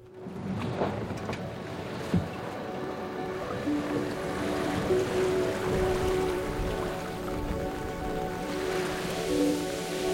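A steady rushing wash of waves and water heard on board a boat at sea, continuous and fairly even throughout, with a faint low hum underneath and no voices.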